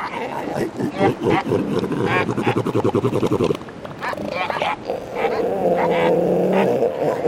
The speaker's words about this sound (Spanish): Dos machos enormes, dos masas de más de una tonelada, se enfrentan. Los gruñidos que salen de sus gargantas resuenan como si emergieran de una caverna.